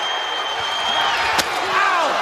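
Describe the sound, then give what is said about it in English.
A wooden chair is smashed across a wrestler's back during a pro wrestling match: one sharp, loud crack over steady arena noise. “He got a wood chair that time and splintered it across the back of Double A.”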